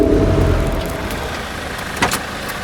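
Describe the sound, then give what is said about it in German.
An armoured Mercedes S-Class saloon pulls up in front of a residence on a weekday morning, giving a steady, broad rumble of engine and tyre noise that eases slightly as the car slows. “Der Wagen des Vorstandssprechers der Deutschen Bank fährt am 30. November 1989 um 8.34 Uhr vor seinem Wohnsitz im Ellerhöheweg vor.”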